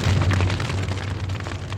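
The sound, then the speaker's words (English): Chemicals and lab equipment igniting into a blazing fire: a dense, continuous roar of flames with a low rumbling hum beneath and a crackling texture, moderately loud and sustained. “the two figures smash into chemicals and equipment, which ignite into a blazing inferno.”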